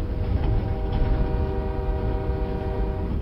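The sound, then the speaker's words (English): Train wheels roll steadily along railway tracks in a continuous low rumble, with a faint humming drone running through it and no voices. “Just the gentle rolling of the wheels on the train tracks.”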